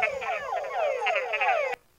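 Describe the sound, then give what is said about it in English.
A Tundra frog chorus of many males calling at once. Dense, overlapping, downward-sweeping calls repeat rapidly and loudly, then cut off abruptly near the end. “They gather in high densities and they're calling, and those calls overlap a lot. So they sound something like this. This is a Tundra frog chorus.”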